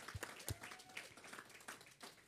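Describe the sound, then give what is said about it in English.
Faint, scattered hand clapping from an audience welcoming guests, a few uneven sharp claps over a quiet background patter. “Let's give them a hand clap, guys. Let's just welcome them.”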